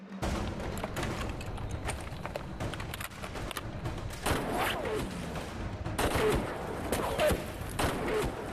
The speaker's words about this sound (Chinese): 他一边说一边开火。扳机扣的训练有素，每次出膛都是2到4发的短点射